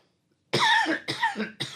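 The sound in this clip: A coughing fit with choking: three harsh, loud coughs in quick succession, the last one cut short, with no talk around them.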